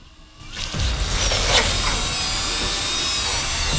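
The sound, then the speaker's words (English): A surgical drill bores a hole into a human skull during surgery. A brief quiet moment gives way to a sustained, loud grinding whir, with thin high whining tones running over it to the end. “the drill bit penetrates his skull”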